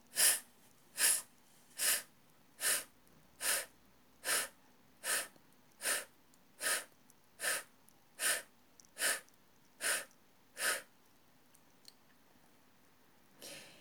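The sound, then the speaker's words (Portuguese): A voiceless F hiss, breath pushed out between the upper teeth and lower lip in a speech exercise, repeated in fourteen short, evenly spaced, soft bursts. “Lembre sempre que para realizar o F, dentes de cima encostados levemente no lábio de baixo. Então, novamente, inspire e solte em F.”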